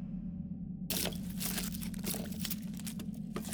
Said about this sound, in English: We detected radio signals. Listen to the tape. It should be self-explanatory.